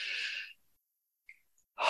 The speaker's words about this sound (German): Wir atmen tief ein.